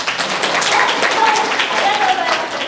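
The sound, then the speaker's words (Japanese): Audience applause at a presentation, a dense, even patter of many hands clapping that fills the whole clip at a steady level. “私がはいってやったら拍手をしてほしいです。モチベーションね、あとメリハリつくしということで、私がはいってやったら拍手ってことを覚えてください。”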